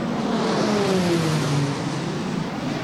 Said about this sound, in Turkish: TUSAŞ tesislerinde teslimat töreni yapılan 2 Hürkuş şu an ilk selamlama uçuşunu gerçekleştiriyor.